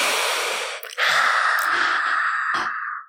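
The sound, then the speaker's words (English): A long, forceful exhale during a breathing exercise: a loud, breathy rush of air lasting about three seconds, with a brief catch near the start before it trails off. “Strong exhale.”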